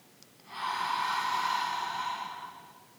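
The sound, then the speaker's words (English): One long, steady breath pushed out through the mouth during a relaxation exercise: a soft, breathy rush of air that swells quickly, holds for about two seconds, then fades away, with no talking over it. “and let it go through the mouth. Again, breathe in and let it go.”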